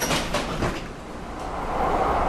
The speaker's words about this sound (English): now let's walk a block up the hill and catch the N Judah train towards downtown San Francisco